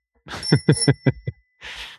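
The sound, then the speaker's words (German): Bell ringing as a sound effect: five quick, bright strikes in a row, each with a ringing metallic tone that carries between them, followed by a short burst of soft hiss. “Okay, dann klingeln wir.”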